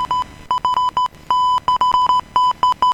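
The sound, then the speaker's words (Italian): Morse code beeps sound as a steady high tone keyed in many short and long bursts in quick, irregular succession. They are clear and loud, with no talk over them. “hanno mandato pure l'alfabeto Morse per chiacchierare con Max Bellè”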